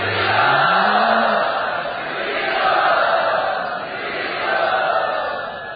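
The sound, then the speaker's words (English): An audience in Bombay cheers and applauds to welcome a guest, a loud, sustained roar that swells and eases in waves. A voice is briefly heard at the start. “Let us very loudly and enthusiastically welcome Gary to Bombay.”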